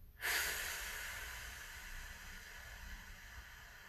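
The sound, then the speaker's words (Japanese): A long, deep exhale during a guided breathing exercise in a vocal warm-up, heard as a soft breathy hiss that starts abruptly and fades slowly over about three and a half seconds, with no talking. “深く吸って、吐きます。”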